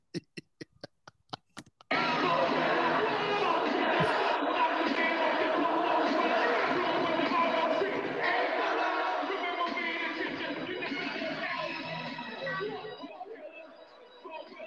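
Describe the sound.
Chatter from a live audience: a run of sharp clicks, then a sudden dense wall of crowd noise with mingled voices that holds loud and slowly thins toward the end.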